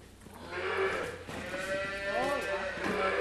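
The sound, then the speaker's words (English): A calf on an agricultural college farm calls out repeatedly while it is handled for tagging. Its wavering, bleat-like cries rise and fall in pitch under people talking. “We have a calf here in front of us, and we're going to tag this calf.”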